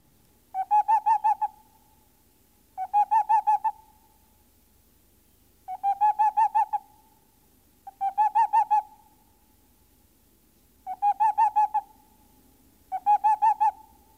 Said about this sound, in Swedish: Är det gott om gnagare kan man höra pärlugglans revirläte redan vid nyårstid.